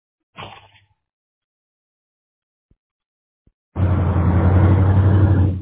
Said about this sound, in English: Oh, you're driving.